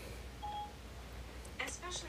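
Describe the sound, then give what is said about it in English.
A mobile phone goes off unexpectedly while a HomePod is being asked a question, giving a faint, soft electronic tone early on and then a brief cluster of brighter chime-like beeps near the end over a low steady hum. “Okay, now my phone went off here. I gotta fix that problem. I apologize.”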